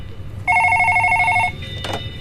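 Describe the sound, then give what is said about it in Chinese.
An office telephone gives a single electronic ring burst about a second long, a loud, steady trilling tone that stops abruptly. Faint background noise follows. “第二天的上班时间，楚林又把电话打到了柯志雄的办公室。”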